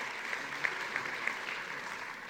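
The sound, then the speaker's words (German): Part of an audience claps, giving steady, fairly faint applause with a few sharper claps standing out. No voices can be heard. “Einige klatschen”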